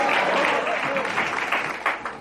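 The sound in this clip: Applause fills a church service, a dense, steady patter of many hands that swells and dips slightly, with voices mixed into the clapping.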